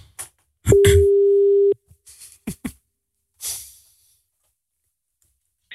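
A telephone tone sounds during a call: a single steady, pitched beep lasting about a second, surrounded by a few short clicks and brief bursts of sound before and after.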